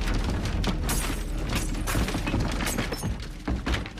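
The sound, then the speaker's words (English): A gas explosion destroys a house: a continuous loud roar of crashing, shattering and breaking debris with heavy thuds throughout, no voices. “In the cellar, Cooper cowers and covers his ears as the house is obliterated by the explosion.”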